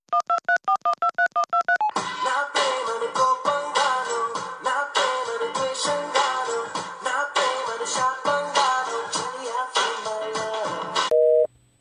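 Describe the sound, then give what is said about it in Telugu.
A phone call being placed on a Vodafone mobile network: a quick run of evenly spaced keypad beeps, then a steady music ringback tune while waiting, ending in a short plain tone. “వాడికి phone కలిపి నేను మాట్లాడతా.”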